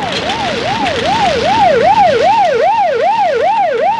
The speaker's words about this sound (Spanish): No oyó la sirena del coche patrullero